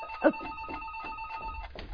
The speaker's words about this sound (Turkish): Telefon çalıyor.